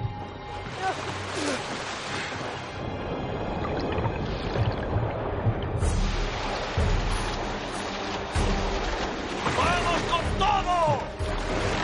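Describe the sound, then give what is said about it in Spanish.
Sea water splashing and washing around men rowing a whaleboat back to their ship at sea, with ongoing churning and sloshing that surges louder in the latter half. “En el mar, los hombres intentan girar el bote en el agua hasta que lo consiguen y reman de vuelta al barco.”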